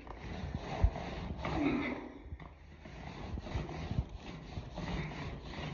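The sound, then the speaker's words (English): Scraping at a car window: a faint, continuous rasping scrape with uneven back-and-forth strokes and a slightly louder passage near the middle. “Oh man, I got the window. Oh, I scrape it.”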